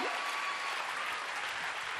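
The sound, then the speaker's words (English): Audience applause after award winners are announced: steady, dense clapping that fills the whole clip at an even, moderate level without letting up. “Okay, I'm gonna give them all. So hold your applause.”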